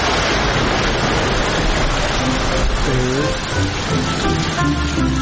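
Rain falling as a dense, continuous hiss that stays even and loud throughout, with faint tonal traces partway through.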